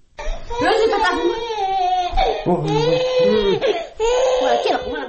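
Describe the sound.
A little girl cries loudly in long, wailing, sobbing bursts with a few short breaks while her mother soothes her, set in a large family's home in Osh.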